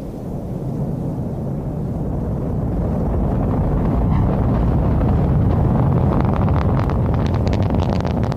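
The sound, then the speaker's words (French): An Ariane rocket lifts off from Kourou, French Guiana, carrying the JUICE probe, with its Vulcain main engine and solid boosters firing. A loud, continuous deep roar swells slightly and holds steady, with crackling texture toward the end and no voices. “1, top. Allumage Vulcain, allumage EAP, décollage.”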